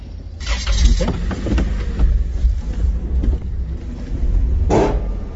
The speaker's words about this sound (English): That's the sound of the ferry Stikine loading a few cars and trucks in Wrangell about 5 years ago.